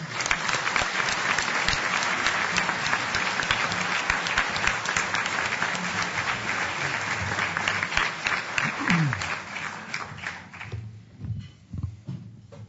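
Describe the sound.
Audience applause welcomes a speaker at the National Press Club, a dense, even wash of many hands clapping steadily for about ten seconds before thinning out and fading to scattered claps.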